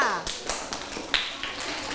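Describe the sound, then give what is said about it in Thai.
Students clapping for a classmate during a lesson, a few sharp, spaced-out claps, with a voice heard at the start. “ถ้าเห็นด้วยปรบมือให้กับเพื่อนด้วยค่ะ”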